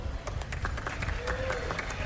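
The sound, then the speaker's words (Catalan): Audience applause for musicians being introduced at a concert: dense, steady clapping that holds an even level throughout without a clear break. “Aplaudiu, aplaudiu.”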